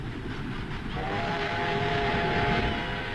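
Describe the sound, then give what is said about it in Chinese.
A passenger train bound for Beiping rumbles along in a dense, steady roar with faint clatter. A sustained whistle-like tone joins partway through and holds to the end, with no talk. “他登上了返回北平的火车。”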